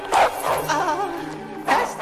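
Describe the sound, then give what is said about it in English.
A Rottweiler barks inside a house, giving a few deep, loud barks with a rough, growly tone between them. “Well, then, whose dog is that? Kevin rises and looks down the hall. Oh, shit. A Rottweiler.”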